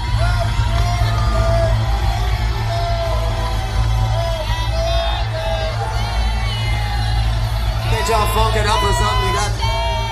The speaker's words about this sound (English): Man, that audience sings happy birthday so bad too.